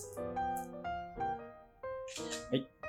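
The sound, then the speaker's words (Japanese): A camera shutter gives a brief mechanical snap and clatter near the end while a voice talks throughout. “ちょっと写真撮ってなかったかな。はい。はい、じゃあ写真撮りまーす。”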